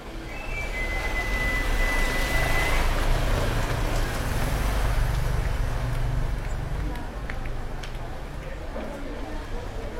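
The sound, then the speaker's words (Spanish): Constant, high-intensity traffic of cars and motor engines forms a dense, unbroken roar with a heavy low rumble that holds steady throughout. “Un tránsito de autos y motores permanente, de alta intensidad.”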